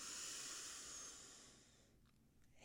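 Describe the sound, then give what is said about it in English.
A long, soft inhale through the nose, a steady airy hiss lasting nearly two seconds before fading into near silence with a few faint ticks. “We're going to go in through the nose. And breathe out. And we're going to say our mantra, radical honesty. In through the nose.”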